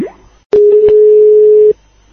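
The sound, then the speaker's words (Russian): Landline telephone dial tone: a loud, steady low tone lasting just over a second, starting with a click and crossed by a couple of faint clicks before it cuts off. “Вот я тебе сейчас перезвоню.”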